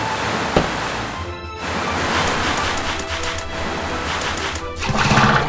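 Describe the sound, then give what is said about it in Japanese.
Rushing water roars steadily from a newly formed waterfall as a dense, continuous wash of noise, swelling a little louder near the end, with no voices. “なんかここにですね、滝ができちゃって行けなくなりました。”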